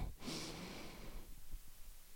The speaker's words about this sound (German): Also, atme tief durch die Nase ein. Zähle dabei langsam bis 4.